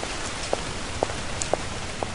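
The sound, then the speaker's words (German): Heavy rain pouring down on a city street, a dense steady hiss with louder drip taps falling at regular intervals about every half second. “Es regnet in Strömen.”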